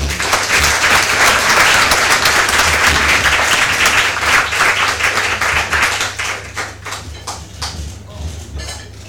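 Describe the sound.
An audience at a club applauds a guest speaker: loud, dense clapping that holds steady, then thins toward the end into scattered separate claps as it dies away.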